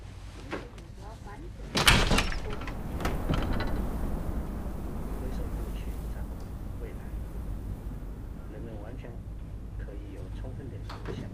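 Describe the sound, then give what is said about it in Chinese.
A window being opened gives a short sliding scrape with a clunk, followed by a long stretch of even, low background noise. “好嘛，你去把窗户打开。”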